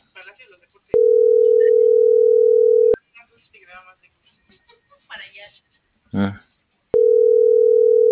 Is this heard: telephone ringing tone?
yes